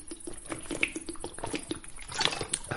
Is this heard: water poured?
yes

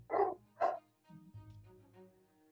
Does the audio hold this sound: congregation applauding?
no

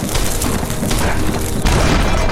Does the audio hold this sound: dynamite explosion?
yes

